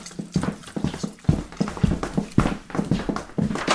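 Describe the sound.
Footsteps walking into the next room: many firm, evenly spaced steps with a hard knocking quality, heard alone at a steady pace.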